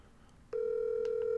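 Ringback tone on an outgoing telephone call: a single steady electronic tone starts partway in and holds unbroken to the end, over faint background noise.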